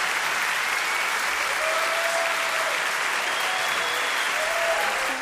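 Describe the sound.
Audience applause after a live song performance: a dense, steady wash of clapping that holds at an even loudness for the whole stretch, with no voices standing out.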